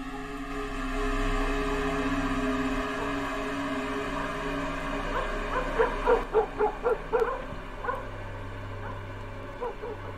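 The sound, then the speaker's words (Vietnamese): Dogs bark and yap at night in a small village, with a run of several short, sharp yelps near the middle. The barking is faint over a steady low hum. “cũng chẳng có gì ngoài tiếng ếch nhái kêu ở ngoài đồng, tiếng chó cắn ma răng rẳng ở đâu đây.”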